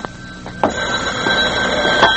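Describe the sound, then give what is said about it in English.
A telephone rings in a doctor's office with a steady, bright, high-pitched ring that holds through the whole clip, and a few soft knocks sound beneath it. “Will you take the phone, please? I'm in the doctor's office.”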